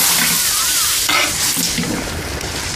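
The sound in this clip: Food frying in a pan, a loud steady sizzle with the scrape and clatter of stirring throughout and no pauses.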